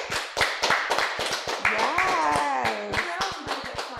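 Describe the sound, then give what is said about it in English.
Applause for two guests on a talk show: a burst of sharp hand claps with a cheering voice rising over it partway through, then claps thinning out toward the end. “Give a big hand for Amani and Kenzie. Woo! Woo!”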